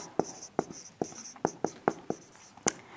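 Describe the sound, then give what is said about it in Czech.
Handwriting as a single word is put down by hand: several short, scratchy pen strokes in an irregular rhythm, each a crisp burst separated by quiet gaps, with no voices. “A to slovo tam napíšu, protože je důležité.”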